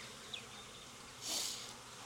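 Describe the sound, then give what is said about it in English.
Honeybees buzz faintly in an opened, healthy ten-frame hive full of brood. The low, steady drone swells into a brief louder burst of buzzing midway, then settles back. “So it's a healthy hive. It's just a 10 framer kind of growing out. No honey being stored up top. Plenty of brood.”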